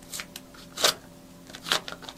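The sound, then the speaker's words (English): A paper envelope being opened, heard as a few short, crisp rustling and tearing bursts separated by quiet gaps. “there is one envelope that's actually stuck to my back, and it says my prediction on it. We'll now open this prediction up.”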